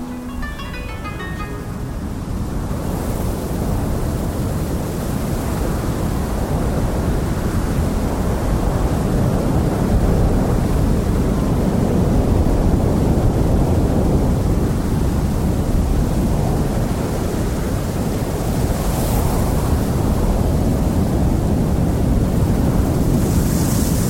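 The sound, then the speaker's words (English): A time-compressed tide cycle on a beach in the Western Isles of Scotland: a steady, loud roar of surf and wind that swells slightly and carries on unbroken, with no voices. “we'll hear Chris Watson with Luskin Tire, made for Radio Broadcast, a 32-minute time compression of a cycle of the tide on a beach in the Western Isles of Scotland.”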